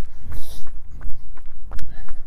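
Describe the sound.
Footsteps of a person out on a run: rhythmic, heavy low thuds repeat in a steady stride pattern throughout, with a voice speaking over them.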